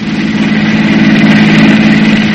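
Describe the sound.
A car engine idles steadily, giving a loud, even, low droning hum that runs unbroken throughout with no voices over it.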